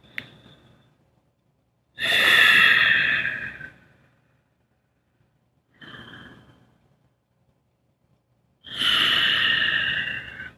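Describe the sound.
Slow, deep breathing during a conscious breathing exercise: three long, airy breaths with audible exhales, separated by silence. The middle breath is shorter and softer.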